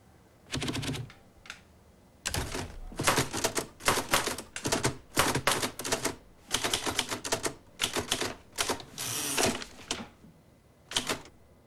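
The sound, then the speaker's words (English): Keys clatter on a manual typewriter at a desk, striking in quick irregular bursts of rapid clacks separated by short pauses, crisp and fairly loud with no talk over it. “He looks up from his typewriter.”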